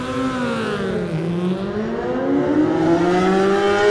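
A BMW racing motorcycle accelerates away from the start of a road race. The engine's loud, steady harmonic whine dips slightly in pitch, then climbs again as it pulls away.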